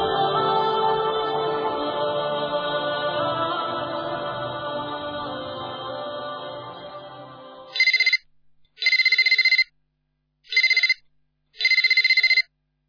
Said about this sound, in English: Yusra, Yusuf's mother, didn't receive a moment's rest from her constantly ringing telephone